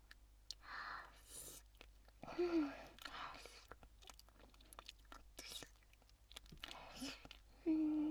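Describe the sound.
Close, wet licking and mouth sounds, soft and irregular, coming in scattered bursts with faint whispering between them.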